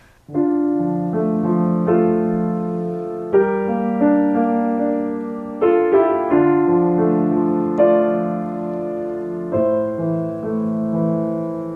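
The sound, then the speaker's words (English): A melody harmonized only with minor chords: sustained chords change every second or so beneath a simple tune, steady and fairly loud, with no voices. “This is a melody just using minor chords.”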